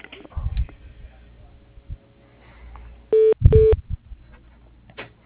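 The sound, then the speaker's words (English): Two short electronic telephone keypad tones sound in quick succession as a phone call is transferred to voicemail. They follow a stretch of low line noise and faint clicks. “If you could transfer me to his voicemail, that'd be great. Sure. Hold on just a minute.”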